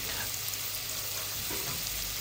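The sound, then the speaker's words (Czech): Finely chopped onion sizzles as it sautés in olive oil in a deep pan or pot, a steady, dense frying hiss that holds evenly throughout with no voices. “Takže nakrájím si cibuli najemno, potom ji orestuju na olivovém oleji.”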